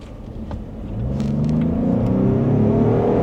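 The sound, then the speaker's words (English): A car engine revs under throttle in sport mode, with augmented engine sound. A low rumble swells after about a second, then the engine note climbs steadily in pitch and grows louder, with no talking. “So in sport mode, if I can give it a little bit of, hold on a second. Let me make sure I'm in sport mode. If I can give it a little bit of throttle.”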